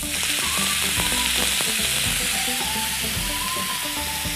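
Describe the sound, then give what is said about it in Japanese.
Enoki mushrooms sizzle in a pan after about a teaspoon of water is added, making a steady, dense frying hiss with scattered light clicks and scrapes from stirring. “えのき入れて全体にちょっとさっとこう混ぜたらここにですね水を本当に小さじ1杯ぐらい入れましょうか”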